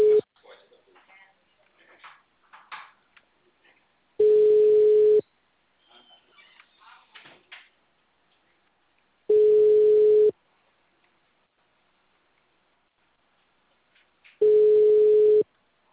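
Ringback tones on a phone call after a number is dialed: three long, steady, low-pitched tones, each about a second, evenly spaced several seconds apart, with faint scattered sounds between the first two.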